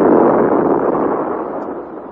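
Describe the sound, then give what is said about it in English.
A ball of electric fire bursting aboard a vessel: a dense, roaring rush of noise that is loud from the first instant and slowly fades over about two seconds. “and then suddenly the ball of fire bursts.”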